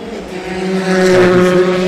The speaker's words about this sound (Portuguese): eles estão a fazer uma travagem bastante forte que até o carro abana